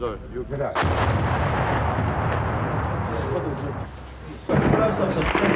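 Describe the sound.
Sniper gunfire in wartime comes as a dense, loud roar of overlapping shots and blasts, with a sharp crack near the start and a fresh burst near the end.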